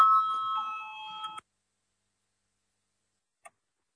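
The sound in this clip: A voting bell rung in a parliament chamber, heard as a steady electronic ringing tone lasting over a second before it cuts off, followed by silence and one faint short tick.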